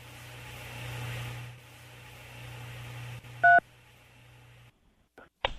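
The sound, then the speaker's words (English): A single short telephone keypad tone, pressed to accept a collect call from a jail inmate, rings out as one steady beep after a low steady hum, followed by near silence and a faint click. “To accept the charges, dial 3. To decline the charges, dial 9 or hang up now.”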